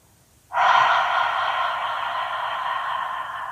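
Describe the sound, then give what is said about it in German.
A deep, full exhalation during a stress-relief breathing exercise: one long breathy rush of air starts abruptly and stays strong, easing slightly over about three seconds, with no voice. “Tief und vollständig ausatmen.”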